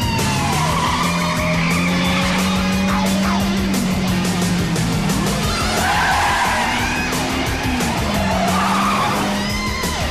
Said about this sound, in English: In his pristine red Ferrari, Axel pulls on his aviator shades, grins and drives off through the early morning streets of Detroit.